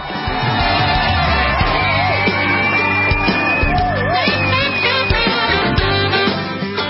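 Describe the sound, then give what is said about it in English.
A crowd cheers and whoops as a guest is welcomed, a loud, continuous roar of shouts and yells with a few higher whoops rising above it. “So would you put your hands together and please welcome Nicole Parker.”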